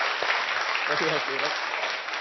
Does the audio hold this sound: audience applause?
yes